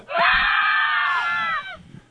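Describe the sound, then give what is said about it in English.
A person screams once, loud and sustained for about a second and a half, holding a shrill, steady pitch that sags slightly before cutting off. “Scream.”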